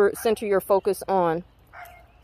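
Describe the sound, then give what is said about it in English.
A dog barks a handful of quick harmonic barks that end in one longer bark, then goes quiet with faint background noise. “Okay, the dog is agreeing.”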